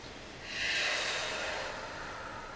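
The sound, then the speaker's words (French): A forceful exhale during a breathing exercise, a breathy rush of air that swells after a quiet start, peaks briefly, then tapers slowly into a soft, steady hiss with no voices. “Et si vous le voulez bien, vous soufflez.”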